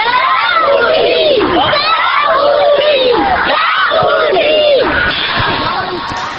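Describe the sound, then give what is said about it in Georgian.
Children shouting together during an open football school project, a dense crowd of high, overlapping young voices yelling and calling out loudly and continuously throughout. “გასმენდით ბავშვებს, რომლებიც სახალისო ფეხბურთის ღია სკოლების პროექტში მონაწილეობენ.”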